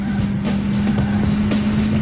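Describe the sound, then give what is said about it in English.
Steady droning engine sound from an N64 rally racing video game, a loud, constant buzzing hum at an unchanging pitch with no gear shifts or clear pass-bys. “Racing sounds, so nothing crazy happens here.”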